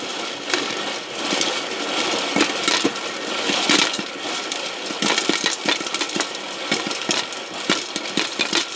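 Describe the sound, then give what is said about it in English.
A stovetop Whirly Pop popcorn maker spins its kernels with a continuous rattling, scraping whir. Many sharp clicks and pops are scattered throughout and grow busier in the second half. “That was the sound of our Whirly Pop popcorn maker. It spins so the heavier kernels fall to the bottom and pop.”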